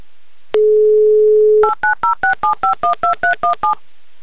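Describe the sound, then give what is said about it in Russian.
A phone number being dialed on a touch-tone telephone: one long steady tone, then eleven quick, evenly spaced two-note beeps in a brisk rhythm, loud and with no talk. “Давай звонить. Очень хочется надеяться.”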